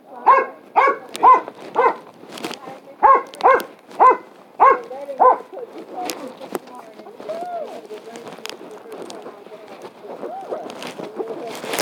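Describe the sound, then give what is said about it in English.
A dog barks as people walk past it, giving two quick bursts of loud, evenly spaced barks, then falling quiet while people talk. “And when we go past him, he's going to bark.”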